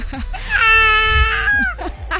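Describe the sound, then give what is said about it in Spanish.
An infant cries after waking up, giving one drawn-out, high, wavering wail that swells and then fades. “Y el bebé ya se despertó y ya se alteró.”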